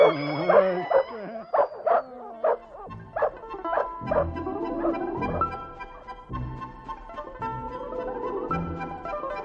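Dogs bark and yelp in a quick run of sharp, loud barks over the first few seconds, then give way to steady background music.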